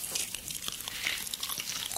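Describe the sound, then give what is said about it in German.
Chewing sounds from someone eating a banana: soft, moist mouth noises and small bites running continuously, fairly quiet, with no talking. “so eine Banane schmeckt einfach saugut.”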